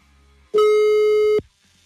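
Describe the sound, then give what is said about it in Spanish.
Telephone busy signal after dialing a number: one loud, steady low-pitched buzzing tone with rich harmonics, lasting under a second, then quiet, with no voices. “Ya le estoy marcando, ¿eh? A ver, otra vez. Márcale, güey.”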